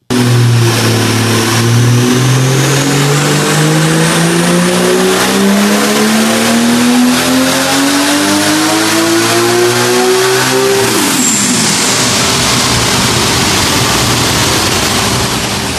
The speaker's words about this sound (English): And what you do is you put it through the gears and you just spool it up.